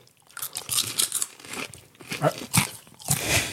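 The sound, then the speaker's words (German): A crunchy snack mix is eaten in many sharp, irregular crunching bites, loud and close, with brief pauses between chews. “Also wir haben auch, wenn man es hört, Crunch. Ist völlig anders.”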